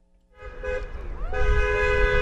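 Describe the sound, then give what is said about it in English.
Car horns honk in support of protesters on a street corner in Menominee on a Friday evening: sustained, overlapping horn tones, one bending briefly in pitch, over low traffic rumble. “On this Friday evening, cars honk in support of protesters who stand on a street corner in Menominee, just across the border from Marinette.”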